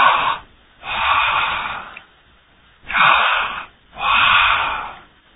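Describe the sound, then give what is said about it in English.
Deep breathing as a person draws slow, heavy breaths: four loud, airy breath sounds of about a second each, separated by short silent pauses, with no talk. “Get you a stethoscope. Hang it over your ears. And breathe in.”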